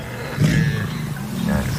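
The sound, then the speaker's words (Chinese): Deep, rumbling roars from a lion close by in the wild, near prey it has caught. Two low swells of growling sound rise over a steady background hiss. “狮子并不害怕。 是的，他们不打算离开。 哦，狮子离得太近了。”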